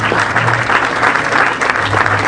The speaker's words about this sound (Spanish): Fuerte el aplauso para todos los premiados.